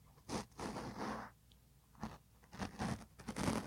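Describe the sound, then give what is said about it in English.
Close, scratchy rubbing of a mustache against a microphone in ASMR style: crackly, bristly friction in a few bursts separated by short pauses, with no talk. “Let me give them the mustache ASMR real quick.”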